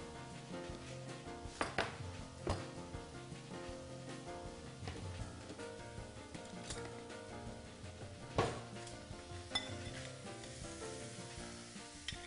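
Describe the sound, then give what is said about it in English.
Sugar sizzling as it heats in a dry sauté pan: a steady, dense crackle with a few sharper pops standing out. The sizzle runs on alone, without talk. “This is a dry saute pan, and to this I am going to add two tablespoons of sugar.”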